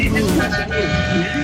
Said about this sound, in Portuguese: Fala aí, buzina aí. Ó, os caras buzinando, ó.